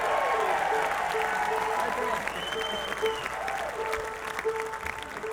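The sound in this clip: Audience applause for a young guitar player at a country music show: dense, steady clapping throughout, with a few sustained tones and a voice heard over it.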